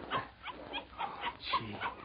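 A puppy whimpering in a quick series of short, soft whines and yips, several in about two seconds, with no other sound.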